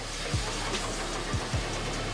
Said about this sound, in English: The engine starts at precisely 500 revolutions in 3 minutes. Exhaust gases are discharged upwards and measured.